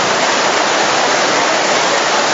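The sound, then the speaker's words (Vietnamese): Heavy rain blowing in sideways against a shelter, a loud, dense, unbroken hiss that holds steady throughout with no voices. “Rồi ai có dù thì chúng ta lấy ra che và đỡ đi, nó phải mưa hắt nha.”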